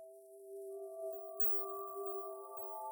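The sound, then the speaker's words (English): A gentle synthesizer pad: a soft, steady chord of pure sustained tones, joined by a higher note shortly after it begins, held calmly at low volume over a faint high hiss, alone. “Our third synthesizer sound is called Peaceful Meadow, which sounds like this.”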